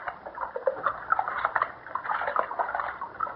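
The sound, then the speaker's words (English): Water splashes and trickles steadily as a young martyrdom candidate is ritually washed, a continuous moderate wash of sound with no voices. “Now he is being washed.”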